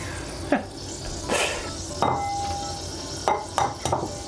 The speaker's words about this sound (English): Bro, I'm just making eggs. I'm making scrambled eggs right now. Turn down the heat.